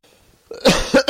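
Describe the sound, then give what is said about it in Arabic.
A few loud, harsh coughs in quick succession, rising abruptly out of near silence. “الكحة لازم.”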